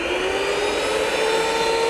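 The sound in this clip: A blender blends a drink into a frothy mix with a steady, loud motor whir and a constant tonal whine. The sound runs unbroken without changing speed.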